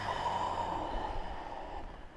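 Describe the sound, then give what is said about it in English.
Deep breathing during a floor exercise class, a quiet, airy rush of breath lasting about two seconds that thins out toward the end over a faint low rumble. “Take a breath in, empty it out.”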